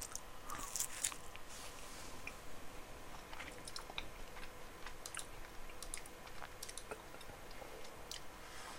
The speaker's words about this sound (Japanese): うまいアイスもなかはうまいっす